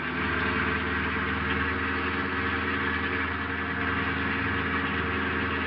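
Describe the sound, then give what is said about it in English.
A car engine hums and rumbles steadily at an even, moderate level throughout, with no clear change in pitch. “I stepped on the gas.”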